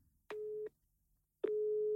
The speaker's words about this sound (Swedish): Nej, hon trycker på upptaget.